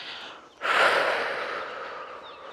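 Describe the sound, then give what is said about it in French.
A single long exhale during recovery between workout intervals. It starts as a sudden loud, breathy rush of air and fades slowly over about two seconds. “Donc vous allez juste souffler”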